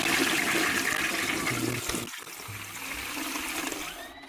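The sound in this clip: A toilet flushing: a loud, steady rush of water that continues through the whole clip and eases slightly toward the end, with no voices.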